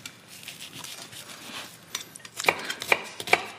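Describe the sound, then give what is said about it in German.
A knife chops food in a kitchen with quick, soft taps that build into three sharper, evenly spaced chops at the end. “Komm, ich hack die hier nochmal kurz fertig.”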